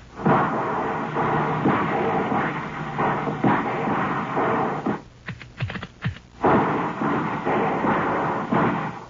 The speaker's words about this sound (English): All right, kids, let's give them three quick volleys. One over there by that tree that's fallen into the clearing. One over there to the right, and one to the left. Fire well above the height of a standing man.